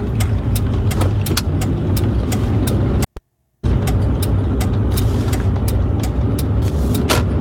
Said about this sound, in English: As you can hear, the large vehicles around him.